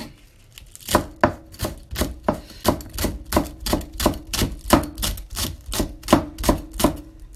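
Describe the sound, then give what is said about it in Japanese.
Rapid knife chopping while mincing vegetables, maitake mushrooms and burdock: many crisp, evenly spaced chops in a steady, quick rhythm, loud and alone with no talk. “今日のこのみじん切りも重ね煮野菜毎週作ってるので今日はえっ、と舞茸とごぼうと”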